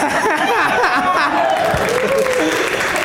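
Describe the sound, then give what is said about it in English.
A live audience at a games event cheering and clapping, a loud, sustained roar of many voices and hands that stays at full strength throughout. “More people cheered for the demise of LaCroix than anything else tonight.”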